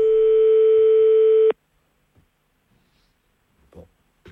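A telephone busy tone drones from a line left open after a call was not properly hung up: one loud, continuous tone that cuts off abruptly, followed by faint, scattered clicks and rustles.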